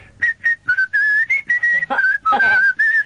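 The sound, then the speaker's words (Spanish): A person whistles a short tune alone: a quick series of bright, high, clear notes with small shifts in pitch, separated by brief gaps. “¿Y sabes cantar o silbar así?”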